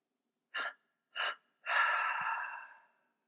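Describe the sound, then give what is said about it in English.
Two quick, sharp breaths in during a guided breathing exercise, then one long exhale that slowly fades out, soft and with nothing else around it. “Inhale renewal. Exhale what no longer serves you.”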